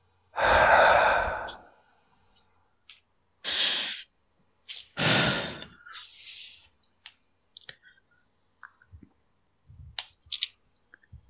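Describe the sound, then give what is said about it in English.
Breathing for a relaxation exercise: a long, loud breath, then shorter breathy exhales and sighs, with scattered faint clicks between them. “Take a deep breath. In for your nose. Hold it for a couple of seconds. And then slowly exhale.”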